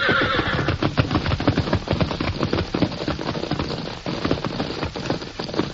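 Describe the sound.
A frightened herd of horses neighing and whinnying over a dense, continuous clatter of many running hooves, loud throughout.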